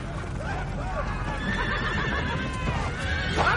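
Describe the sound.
Horses neighing among mounted warriors in a city square strewn with rubble, with several wavering whinnies rising and falling over a dense, steady low rumble.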